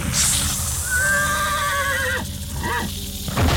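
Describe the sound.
A horse neighs, the last horse of a Comanche tribe on the Plains: a long, wavering harmonic whinny that slides down in pitch, then a shorter second call, steady and fairly loud throughout.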